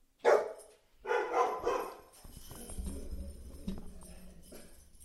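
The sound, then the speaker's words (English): A dog barks in a few sharp bursts, loud at first, then gives way to quieter low rumbling background noise. “I apologize. That's my dog barking.”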